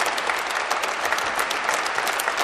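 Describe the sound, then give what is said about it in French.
Pilgrims at a pilgrimage applaud new hospitallers with dense, steady clapping from many hands that stays loud and even throughout. “Les hospitaliers se tournent maintenant vers les fidèles qui les applaudissent.”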